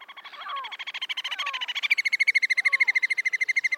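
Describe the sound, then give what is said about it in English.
A bird's rapid pulsed trill, a long unbroken run of fast notes that grows louder and shifts to a higher, brighter pitch about halfway through, with a few faint lower call notes beneath. “It may be a short burst from a single bird, or a long, deeper, so-called threat trill from a bird in territorial dispute,”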